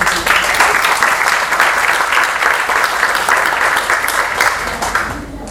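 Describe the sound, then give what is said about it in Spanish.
Audience applause at a workshop gathering: dense, steady clapping fills the whole clip at a loud, even level and eases slightly near the end. “Aplauso.”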